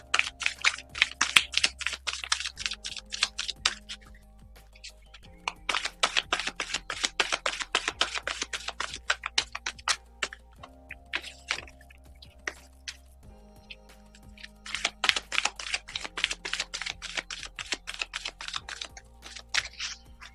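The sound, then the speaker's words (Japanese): A deck of tarot cards is shuffled in several bursts of rapid, crisp papery clicking and fluttering, with short pauses between them, over a faint steady low hum. “カードをシャッフルさせていただきます。少々お待ちください。”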